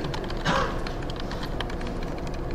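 Typing on a computer keyboard during a programming demonstration, with many quick, soft keystrokes in an uneven, continuous patter, faint throughout and with no talk over it.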